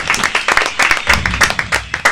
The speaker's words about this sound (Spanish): Muy bien, muchas gracias, un aplauso.